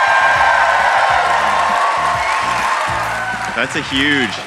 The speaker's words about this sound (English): We are joined by a huge crowd